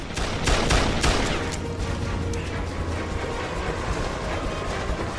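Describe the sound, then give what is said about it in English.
Gunfire as weapons are emptied in a desperate burst: a rapid volley of sharp cracks packed into the first second, then a continuous rough, noisy rumble at a steady level. “He takes shelter and desperately empties his weapons in the direction of his would-be assassins.”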